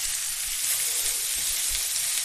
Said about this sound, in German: So, und dann vielleicht so 2 Minuten und dann kommen nämlich die Birnen da mit dazu in die Pfanne.